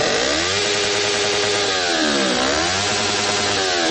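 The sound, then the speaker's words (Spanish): A Yamaha R3 motorcycle engine revs loud and raspy without pause, its pitch climbing, dipping once around the middle, then climbing again. “Ese es el sonido de una Yamaha R3, que es música para los oídos”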